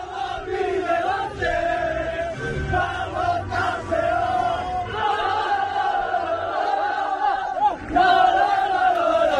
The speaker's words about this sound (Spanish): Son los sonidos de la celebración de ayer, después de 80 y pico años.